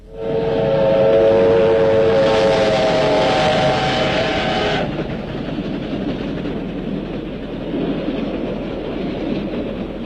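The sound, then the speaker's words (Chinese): A military train speeds past at night: a long, loud, harmonic steam-whistle blast, then a steady rumbling rattle of rolling wheels that carries on alone. “一列军用火车在夜色中奔驰而过，林彪”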